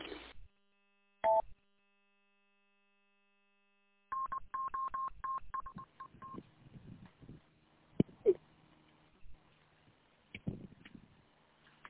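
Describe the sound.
Electronic beeps from a mobile phone interrupting a conversation: a short tone burst, a pause, then a rapid run of dialing-like tones followed by scattered clicks and faint noises.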